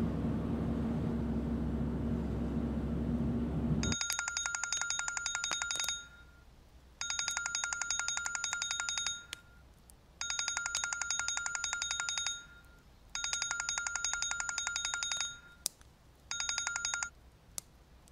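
Telephone ringing heard through the line during a call: five bursts of bright, warbling electronic ring, each about two seconds long and separated by short pauses, with no talk.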